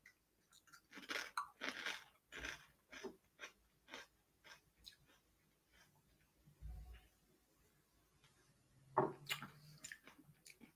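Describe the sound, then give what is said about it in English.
Crunching a chip while tasting sake: many faint, crisp bites and chews in an irregular rhythm, with soft breathing between them. “Now let's do a chip test. Let's see how it tastes with chip.”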